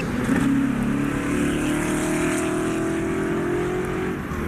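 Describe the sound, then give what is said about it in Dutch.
A straight-eight car engine rated at 310 horsepower revs in a loud, sustained, smooth drone, its deep tone holding steady for about four seconds before easing off slightly at the end. No talking over it. “Dat klinkt gewoon goed. Het is een 8-in-lijn cilindermotor.”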